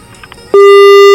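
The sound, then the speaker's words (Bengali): Telephone busy tone after a call line drops: a loud, steady single-pitch tone cuts in abruptly after a brief faint stretch and holds to the end. “আর লাইনটা যাই হোক কেটে গেল, হয়তো বা নেটওয়ার্কের কোনো সমস্যা রয়েছে।”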